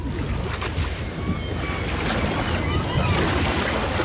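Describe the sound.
A boat on the water amid waves, heard as a continuous, loud roar of surf and wind that holds steady throughout.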